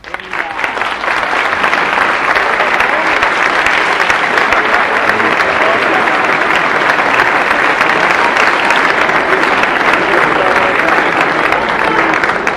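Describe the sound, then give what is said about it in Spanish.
Sustained audience applause at a live comedy stage performance, a loud, dense, even roar of clapping that rises quickly and holds steady for about twelve seconds. “Hasta me aplaude.”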